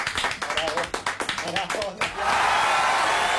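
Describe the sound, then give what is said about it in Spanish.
Applause in a studio for a guest: a quick run of rhythmic hand claps with a voice talking over them, then a steadier, denser wash of sound. “Así que un aplauso para Diana desde acá.”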